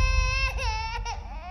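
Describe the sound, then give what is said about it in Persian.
A person cries in a room, a high, sustained wail whose pitch wavers up and down. The cry stays fairly loud and steady throughout and is heard on its own. “هر کی که داره گریه میکنه قطعا توی این اتاقه.”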